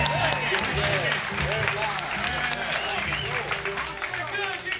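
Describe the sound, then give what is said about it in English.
Audience applause for the Shenandoah Cut-Ups band: a steady wash of clapping and crowd noise that carries through the whole stretch, mixed with instrumental tones and a voice. “I wish you'd do me a favor and give the Shenandoah Cut-Ups a little hand of appreciation for the tremendous job they're doing. Would you make a welcome?”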